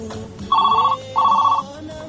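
A telephone rings with an incoming call to a radio call-in program: two short, warbling electronic ring bursts over a low, steady background hum.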